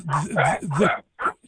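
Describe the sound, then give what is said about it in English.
A protester's dog vocalizes with a few drawn-out, wavering whines followed by a short yip, fairly loud and without talk over it. “that's one of the protesters' dogs, is it?”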